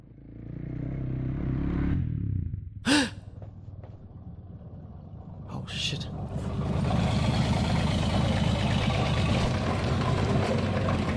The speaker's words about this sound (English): Old car has just arrived inside the library. Oh, motorcycle, car, and armored vehicle. Damn, they are fast.